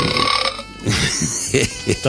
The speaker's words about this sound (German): Das waren keine Wellen, sondern das war meine Soundmaschine. Ich habe eigentlich den Wellenplätschereffekt gesucht, aber bin leider mit dem Rülpser in Kontakt gekommen